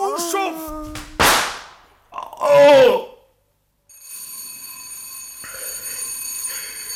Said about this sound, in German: Ja, Sie haben geläutet, Sir.